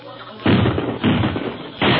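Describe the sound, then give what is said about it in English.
Gunfire rings out in a radio drama shootout as police surround the crooks: three heavy, booming bursts, each loud and roughly half a second long, separated by short gaps. “Hey, everybody. Everybody keep down. Just in case a stray bullet comes up here.”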